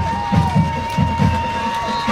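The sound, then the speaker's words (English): Crowd noise at a high school football game between Flagler County and Pine Ridge, a steady roar of many voices with a few rhythmic low swells in the middle. “With this crowd, it'll be hard to. And I think the crowd had an impact there, as there is a timeout by Pine Ridge.”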